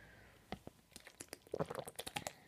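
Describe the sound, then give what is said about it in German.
Someone takes a sip of a drink, heard as faint irregular clicks, small knocks and wet mouth ticks. They grow busier toward the end. “Ich muss mal einen Schluck trinken, Leute.”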